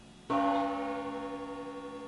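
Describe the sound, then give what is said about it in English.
An old gong struck once: a sudden metallic hit blooms into a bright, sustained ring of steady tones that hold and fade only slightly over the following two seconds. “I don't think that was too loud. That's the old gong. My kids have dug up the old gong.”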